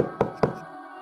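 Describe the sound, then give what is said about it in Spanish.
Two knocks on a bedroom door at night, a quick pair of moderately loud, dull raps about a quarter second apart, followed by a low steady hum. “Me pongo el batín sobre el camisón y salgo trastabillando por el pasillo. Y os doy en vuestra puerta.”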